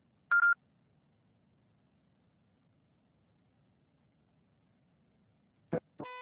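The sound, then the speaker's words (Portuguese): A voicemail beep tone sounds before a message can be left. One short, clear high beep is followed by long near-silence, then a click and another brief, buzzy tone at the end. “Pode deixar seu recado, você só será tarifado após o sinal.”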